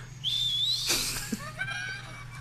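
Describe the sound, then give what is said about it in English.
A thin nasal whistle while sniffing the aroma of a drink: a high, rising whistle tone, a breathy sniff burst, then a few shorter wavering whistle tones trailing off, with no talk. “You got that nose whistle going.”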